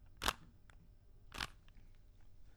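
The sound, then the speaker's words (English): A Rubik's Cube being turned during a solve, with two sharp plastic clacks about a second apart and a few very faint ticks between them, set against near silence. “I'm not eating food, but I am playing with the Rubik's Cube, and this is me solving a Rubik's Cube.”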